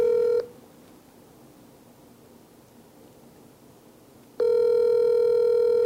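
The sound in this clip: Ringback tone of an outgoing telephone call going unanswered: a steady buzzing tone cut off at the start, then about four seconds of near silence, then the tone returns and holds to the end.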